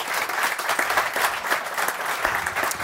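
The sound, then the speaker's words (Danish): Audience applause for a three-person panel being welcomed: steady, dense clapping that holds at an even level for about three seconds without voices. “Velkommen til. Giv dem en kæmpe hånd.”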